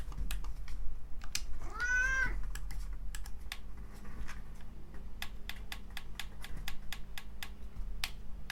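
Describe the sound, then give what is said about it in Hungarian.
A pet cat, after its owner's water, gives one drawn-out meow near the start, its pitch arching up and back down, while computer keyboard typing clicks patter steadily throughout. “Hihetetlen gyerekek a macska, tehát hogy továbbra is az én vizemre pályázik, és most végre elterült itt mellettem”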